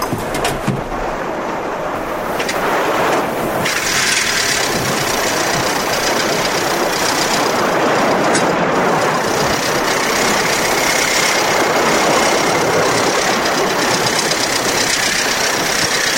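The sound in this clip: A motor launch's engine idles beside a larger vessel, giving a steady, loud rumble with a dense, unbroken roar that holds level for the whole stretch, with no voices.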